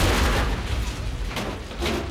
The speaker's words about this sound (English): The cigar ignites the gas. The captain scurries away to take shelter beside a car with Harry. The truck explodes, engulfing its cargo of heroin in a fireball.